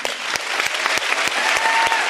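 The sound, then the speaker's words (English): An audience at a panel discussion applauds in a dense, steady wash of clapping, with several sharper claps standing out at a fairly even pace. “Clap for that.”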